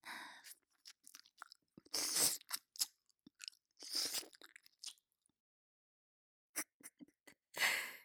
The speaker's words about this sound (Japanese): 人を食べるのは久しぶりです。良いお味。